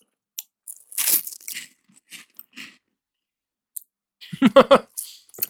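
Crunching and chewing of a handful of cheesy poofs, crisp crackly bursts coming in two clusters with quiet pauses between them.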